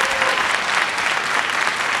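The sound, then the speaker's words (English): Audience applause at a tenth-anniversary event, dense, steady clapping that stays at an even level from start to finish with no breaks. “One more round of applause for the video team.”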